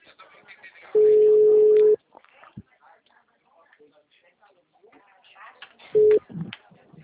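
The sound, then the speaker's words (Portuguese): An outgoing evening phone call gives a ringing tone: one long steady beep, then a pause with faint murmuring, then a second short beep near the end. “vou ligar agora pra ele, vou fazer ele fechar. Vou ligar agora pra ele.”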